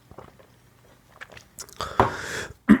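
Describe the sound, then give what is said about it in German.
A person drinking a beverage: a few soft clicks and handling noises, then a louder breathy rush and a low gulp-like thump at the end. “Warte, ich muss noch was trinken.”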